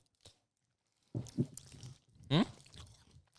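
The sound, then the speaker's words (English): Someone bites into a Violet Crumble chocolate bar and chews it. A few crisp crunches and moist chewing sounds come through faintly, grouped in short bursts after a brief opening click. “I'm not going to go out of my way to get a violet crumble, you know? No, but now bite this and you actually get the vibe.”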